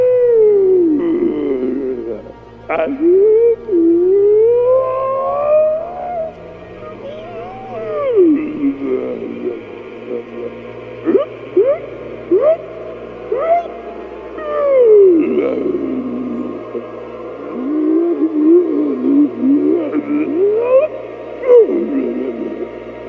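Whale vocalization: a long run of gliding, moaning calls that swoop up and down in pitch, with short squeals and brief gaps between phrases, sounding fairly loud over a low, steady hum.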